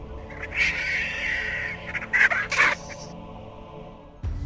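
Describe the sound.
A strange bird calls in a pine forest, giving a few harsh, raspy cries in two loose bursts, fairly loud over a quiet background.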